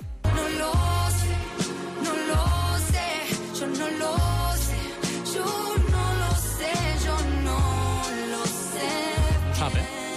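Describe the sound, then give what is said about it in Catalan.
A song plays on a Catalan radio show, with a bright melodic arrangement over a steady low beat and no talk throughout. “Anem a la musiqueta? Sí, i avui sona així.”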